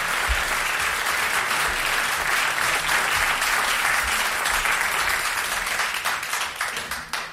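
An audience at an awards evening applauds as a dance band is welcomed onto the stage: a thick, loud, steady wash of many hands clapping that holds for several seconds and fades near the end.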